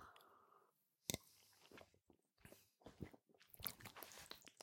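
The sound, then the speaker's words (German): Wet mouth sounds of someone taking a sip of a drink that smells like punch and has a yeasty aftertaste: a few soft slurping and swallowing noises, faint, with no talking. “ich nehme einfach mal einen Schluck”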